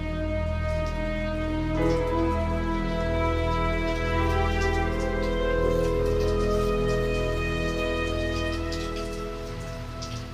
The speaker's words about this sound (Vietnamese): Những tiếng mưa rơi rả rích vào ngày cuối tuần phá tan đi cái không gian vốn dĩ yên ắng và tĩnh mịch của khu rìa ngoại ô Komagomi.